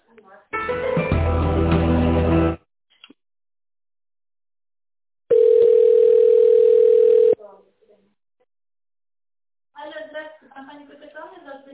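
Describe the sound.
Telephone line tones play while a call is being transferred: a two-second burst of harmonic-rich tones, a pause, then a loud, steady single-pitched tone for about two seconds. A voice speaks at the end.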